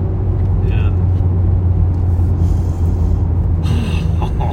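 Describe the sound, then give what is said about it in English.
A 2014 Mark 6 car pulls hard in second gear, its engine giving a steady, deep rumble heard from inside the cabin throughout. “So that was a Mark 6. It's stout. It's good. Pulling second gear, huh?”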